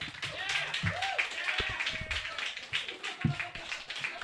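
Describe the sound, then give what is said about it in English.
Audience applause welcoming a stand-up comedian to the stage, dense clapping mixed with voices calling out and whooping, holding a steady, lively level throughout. “Put your hands together, make him feel welcome.”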